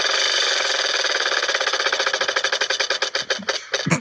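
A prize wheel spun as part of a party-style game clicks rapidly in a dense, loud run of ticks. The ticks gradually spread apart and slow as the wheel winds down to a stop, with no voices over it.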